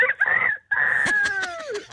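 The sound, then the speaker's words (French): A person imitates a rooster crowing: a short tonal call, a brief gap, then a longer drawn-out crow whose pitch falls toward the end. “Vous nous avez fait le coq, encore un petit coup de coq à minuit 29.”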